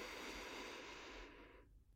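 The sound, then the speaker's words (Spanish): A long, steady breath during a guided breathing meditation, a soft airy rush that holds evenly for well over a second and then fades away, heard alone with no talking. “Respira conmigo.”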